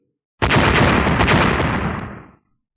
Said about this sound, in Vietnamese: Ba tiếng nổ vang lên